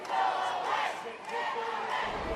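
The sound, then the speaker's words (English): Thousands of protesters in a crowd outside the NRA gun convention raise a loud, continuous roar of shouting and chanting voices that swells and dips slightly. “The crowd outside the convention is as animated as the crowd inside. There are thousands of people out here, and their message is the NRA should go away.”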